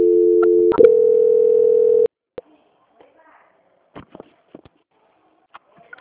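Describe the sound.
A steady mid-pitched telephone tone plays during a call transfer to a credit company's audit line. It lasts about two seconds with one brief break, then gives way to a few faint scattered clicks and near silence.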